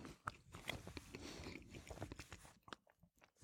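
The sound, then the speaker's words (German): Bread is bitten and chewed close up, giving a quiet run of crunchy, crackling bites and irregular mastication sounds. The bursts are uneven and fade toward the end. “Also ich muss jetzt auch zweimal abbeißen vom Brot”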